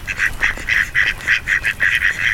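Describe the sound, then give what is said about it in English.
Ducks quacking in a rapid, steady series of loud, nasal calls, one after another with short gaps, heard alone with no voices. “But on the way up to the inn, I make some recordings. Some ducks, hopefully.”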